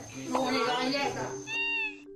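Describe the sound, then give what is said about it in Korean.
A cat meows, drawn to a meal of grilled pork belly. A rough, noisy vocal sound gives way to a clear, drawn-out high call near the end. “식사를 시작한 바로 그때 삼겹살 냄새를 맡고 찾아온 만냥이.”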